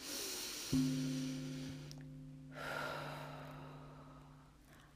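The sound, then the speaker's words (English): A slow, deep breath is drawn in and let out during a guided affirmation session. The soft, airy breathing sits over a low, sustained musical drone. “Take a deep breath, let it out.”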